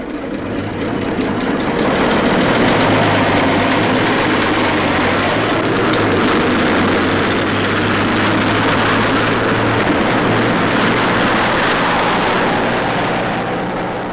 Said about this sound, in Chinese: 见敌人的军车开走了